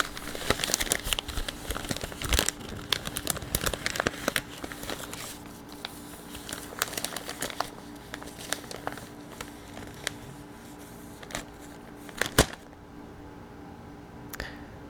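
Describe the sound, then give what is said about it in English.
A newspaper is crumpled in the hands, producing dense crackling and crinkling that runs steadily for most of the stretch, then stops abruptly and leaves near silence. “This is where we call numbers from a newspaper after I crumple it.”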